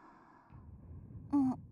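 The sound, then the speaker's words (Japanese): A yawn: a long, soft breathy inhale that ends in a short voiced vocal tone, louder than the breathing before it. “あくびしたらそんなに眠いの？”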